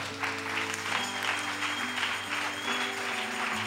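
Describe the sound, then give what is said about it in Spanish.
A church audience applauding the Lord during a sermon, with continuous many-handed clapping over sustained, steady musical tones that hold underneath for the whole stretch. “Denle un aplauso al Señor con todo el corazón.”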